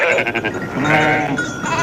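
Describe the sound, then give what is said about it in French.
A flock of about a thousand sheep bleats during the autumn transhumance at Roubion as they return from summer pasture. Many overlapping bleats sound continuously and loudly, with no talk. “Pour la traditionnelle grande transhumance d'automne. 1000 moutons, ça fait beaucoup, de retour de leur pâturage d'été.”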